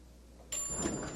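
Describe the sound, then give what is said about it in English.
An elevator door slides shut with a soft swish that starts about halfway through and holds steady at a moderate level to the end. “sadly looks away as the elevator door closes between them.”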